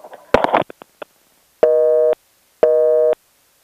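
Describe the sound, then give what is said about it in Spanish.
A telephone busy tone follows a dropped call: a short burst of crackle and clicks, then two evenly spaced steady beeps, with a third just beginning. “Bueno, al parecer se le cayó la llamada al profesor.”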